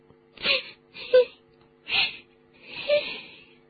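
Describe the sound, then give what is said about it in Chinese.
A girl crying and sobbing in four distinct wailing bursts with short pauses between them. Her voice is moderately loud and strained, over a faint steady tonal hum. “别哭了，现在没事了”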